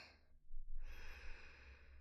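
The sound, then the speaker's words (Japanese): A person takes a slow, deep breath in during a guided relaxation exercise. It is a single soft, airy inhalation that swells and then holds steady. The sound is faint and heard alone. “まずは全身の力を抜いてリラックスして深呼吸です。息を吸って、”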